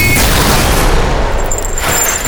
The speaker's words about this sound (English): The projectile for my gun passed through Carol's desk and into the bot, destroying them both.